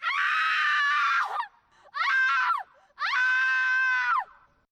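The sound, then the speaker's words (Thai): Three loud, high human screams, each a long harmonic wail with a short gap between. The first and third bursts are longer and the middle one is briefer, and each trails off with a sliding pitch. “นักวิจัยบอกว่าโดยปกติแล้วเสียงสนทนาของคนเรานั้นอยู่ที่ระดับ 4-5 เฮิรตซ์หรือรอบต่อวินาทีแต่เสียงหวีดร้องจะมีพลังมากกว่า”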